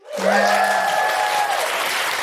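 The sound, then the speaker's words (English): An audience at a live feminist comedy event giving a round of applause: dense, loud clapping that swells in quickly and holds steady, with a sustained whooping cheer riding over it. “Can I just give a big round of applause to everybody today who came, who asked a question or came and told us about their amazing feminist thing?”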